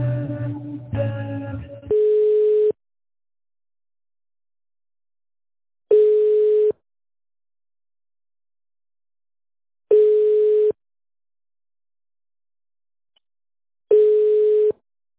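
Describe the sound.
A telephone line tone sounds while a call is being transferred. After a brief burst of other sound at the start, four long, steady mid-pitched beeps follow, evenly spaced by silence.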